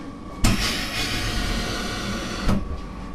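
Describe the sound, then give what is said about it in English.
A nitrogen cryotherapy machine cools down with a steady rushing hiss and hum, broken by two sharp clunks, one near the start and one near the end. “So that's just the sound of the machine cooling down.”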